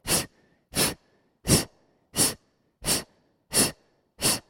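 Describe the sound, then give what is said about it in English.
Seven forceful exhales during an exercise class, evenly spaced breathy bursts with short silences between them and no talking. “The only effort happens on the exhale. Begin. Exhale, exhale, exhale, exhale.”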